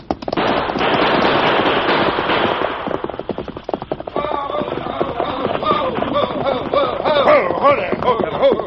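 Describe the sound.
Gunfire during a stagecoach holdup in a Western drama: many sharp bangs in rapid, irregular bursts, loud and dense in the first half, then continuing more unevenly alongside other busy action sounds.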